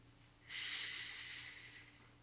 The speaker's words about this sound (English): A deep breath in and a big exhale.